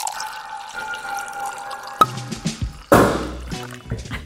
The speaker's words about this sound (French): Eh ben, je crois que c'est le moment d'ouvrir notre troisième bouteille. Très bien. Au goulot.